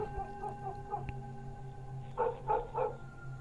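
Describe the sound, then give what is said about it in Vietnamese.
A dog barks in a village at night: a few soft barks at first, then a louder run of three barks near the end, all faint over a low steady background. “Thậm chí văng vẳng từ trong làng có tiếng chó cắn ma cứ ông ổng sủa đến.”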